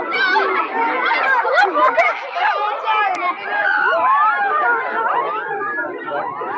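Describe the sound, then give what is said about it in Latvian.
A joyful crowd of pilgrims greeting one another, a dense, steady babble of many overlapping voices and lively chatter, some high and child-like, filling the whole stretch without pause. “Nu, te valda tāds prieks un savīņojums, un es ceru, ka jūs to dzirdat šajā brīdī.”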